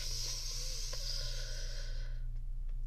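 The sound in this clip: One long, deep breath taken as a calming mindfulness exercise: a steady, airy hiss over a low constant hum that cuts off abruptly, leaving only the hum.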